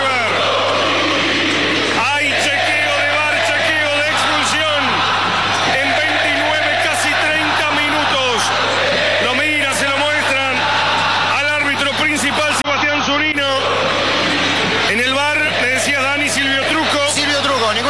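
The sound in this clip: A football stadium crowd roars and shouts after a hard foul, a loud sustained swell of yelling and bellowing that runs beneath commentators talking throughout.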